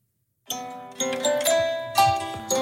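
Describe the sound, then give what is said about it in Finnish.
An alarm clock ringtone starts after a short silence: a bright melodic sequence of chiming notes struck in a quick, repeating pattern, each note ringing and decaying before the next. “Mä vaan tänä aamuna kuuluu tällainen soittoääni täältä.”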